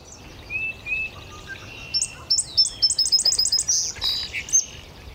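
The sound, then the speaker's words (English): An indigo bunting singing in a maple in spring, its thin, high-pitched whistled notes starting sparse and then speeding into quick runs of repeated paired phrases, clear against a quiet background. “It's the bunting. That high-pitched sound, and every note is repeated, every phrase is repeated.”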